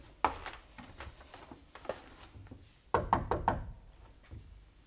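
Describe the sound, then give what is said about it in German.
Knocking on the door of room number 5 in a rented lodging: a single firm knock, then a few soft taps, then a quick cluster of about four sharp raps, with no voices heard. “Klopfen wir nochmal.”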